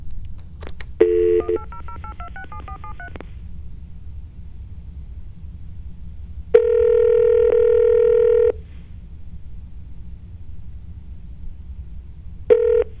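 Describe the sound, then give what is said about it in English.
Touch-tone telephone keypad dialing a number: a rapid run of many short beeps, then after a pause one longer steady tone, and another tone starts at the very end, all over a low background hum. “I'm afraid to dial. This could be stupid. It could be, oh, here we go.”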